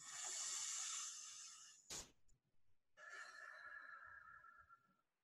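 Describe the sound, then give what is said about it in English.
A deep breath taken on a count of three during a kids' craft show: a long, airy inhale, a brief pause, then a long, steady exhale. “So I'm going to ask, as usual, to take those deep breaths in. So on the count of three, let's do that deep breath. One, two, three.”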